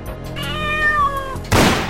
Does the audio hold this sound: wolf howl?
no